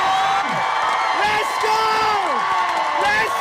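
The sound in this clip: Crowd cheering at a marathon finish line in Dublin, marking the end of 33 marathons in 33 days: loud, continuous shouts and whoops, with voices rising and falling over a dense crowd roar.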